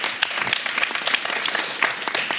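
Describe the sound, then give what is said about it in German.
Audience applause at a live competition evening with a public jury: dense, fairly loud clapping from many hands, steady and continuous with no talk. “Ein Applaus für euch.”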